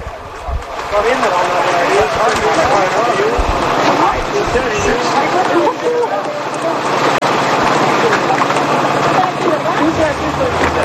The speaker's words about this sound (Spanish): Son los corredores dando voces